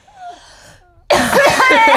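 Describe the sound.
A sudden, loud, raspy throat-clearing cough breaks out after near silence, a voiced, grating burst as someone tries to clear something lodged in the throat.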